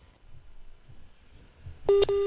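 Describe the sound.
Telephone connecting tone during a call: after near silence, two short, steady electronic beeps sound back to back at the end.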